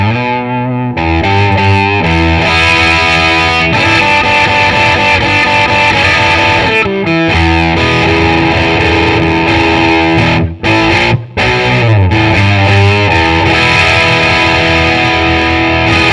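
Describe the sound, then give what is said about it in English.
An electric guitar plays through its humbucker pickup, a Cole Clark model, with a little overdrive. Loud, sustained, gritty chords ring almost continuously, broken only by a couple of brief dropouts late on. “And then the humbucker. I've got a bit of grit on this, so yeah, a little bit of drive.”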